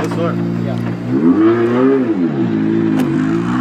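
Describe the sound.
A race car pulls away from the start with a loud, droning engine whose pitch rises and then falls, while a commentator talks over it.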